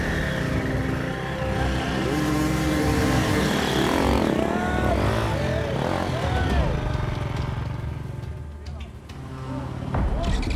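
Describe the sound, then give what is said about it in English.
A dirt bike engine revs through the woods, its loud, continuous drone rising and falling in repeated surges as the bike is wrestled along the trail. “Johnny and Mitch rely on teamwork to wrestle their bike through the woods”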